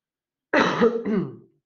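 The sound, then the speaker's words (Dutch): A single rough cough from an adult speaking Dutch, heard alone: a sudden raspy, throaty burst lasting about a second, shading into throat-clearing before it fades. “Ik moet even hoesten.”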